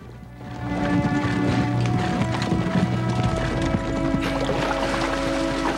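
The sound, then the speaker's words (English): Hooves clip-clop as a troop of horses rides single file along a narrow woodland path with a colt trotting alongside. The steady, overlapping hoofbeats continue throughout, with no talk. “Hutton's Yankee troop ride single file along a narrow path. Trotting alongside them is the colt, with the red bandana still tied around his neck.”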